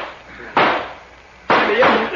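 Two gunshots crack out during a shootout in a crime drama, sharp bangs about a second apart, each trailing off in a short decaying tail.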